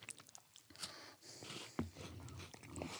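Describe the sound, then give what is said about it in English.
Soft, faint chewing and biting on a Tim Tam biscuit eaten after a Tim Tam Slam with tea, with one sharper crunch near the middle amid low rustling. “So, we're biting the little tips off of each end. And this is the Tim Tam Slam. I'm going to do a Tim Tam Slam.”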